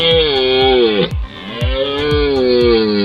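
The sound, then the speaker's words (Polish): Deep bellowing roars of a red deer stag during the rut, the first caller to open it. The long harmonic bellows sink in pitch, with a brief break near the middle before the roaring resumes, heard alone. “Tym pierwszym głosem, który słyszymy podczas rykowiska, to jest głos byka organisty, który rozpoczyna rykowisko.”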